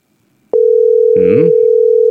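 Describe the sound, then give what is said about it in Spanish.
A steady, unbroken telephone line tone starts abruptly and holds one pitch to the end while a call goes unanswered. A brief voice speaks over it partway through. “¡Coge el teléfono! No quiere atender. Está ocupado.”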